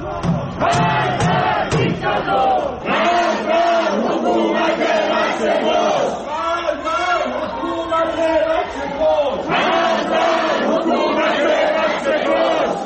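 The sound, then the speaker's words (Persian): Protesters chant against the government in Ekbatan township, Tehran. Massed voices shout in loud rhythmic phrases that repeat without pause, forming a dense, continuous roar of crowd chanting. “این صدای معترضان در شهرک اکباتان است که میشنوید.”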